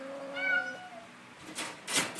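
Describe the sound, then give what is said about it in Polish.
A female house cat meows once in a drawn-out, clear tonal cry, followed by a couple of brief, noisy rustling bursts. “A to jest Balbinka, kiedyś zwana Zołzą, bo była okropnym kotem, niegrzecznym, takim behawioralnie zaburzonym”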